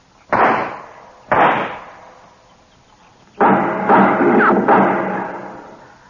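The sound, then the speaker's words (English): Gunshots fired in a marshal's standoff: two sharp, loud shots about a second apart, each trailing off, then after a pause a longer dense burst of several overlapping shots that slowly fades. “I'll put a couple of shots in there.”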